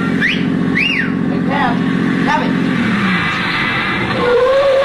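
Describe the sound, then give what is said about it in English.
Steady engine and road rumble of a taxi cab driving, continuous throughout, with voices talking over it. “Take me home, driver. Home? Your home or my home, wise guy? Huh. Well, you got talent, you're driving a cab.”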